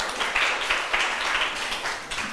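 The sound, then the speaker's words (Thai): Students in a classroom clapping for themselves after finishing a group task: a dense, soft patter of many hands, fairly faint, with rhythmic swells throughout. “นักเรียนปรบมือให้ตัวเองหน่อย”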